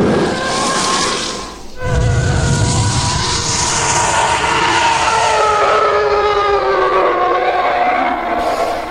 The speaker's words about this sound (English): TIE fighters sound like this.